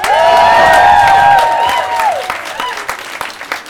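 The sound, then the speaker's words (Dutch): Applause for a singer at an open stage during a Pride Walk, with a sustained cheer over loud clapping at first. The clapping then thins to scattered claps that fade away. “Ja, nog 1 keer applaus voor Kiko.”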